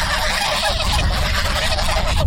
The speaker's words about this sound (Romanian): Un cârd de gâște traversează alene centrul satului, forțându-l pe un automobilist grăbit să încetinească.